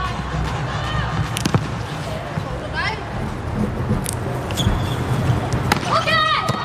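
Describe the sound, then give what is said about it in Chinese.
A volleyball serve is struck at set point in an international match. A few sharp smacks and squeaks cut through steady arena crowd noise. “嗯，好发球。”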